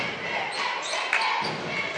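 A basketball bounces on the court during the Holly Pond vs Hanceville game, one sharp dribble standing out midway over a steady wash of crowd noise.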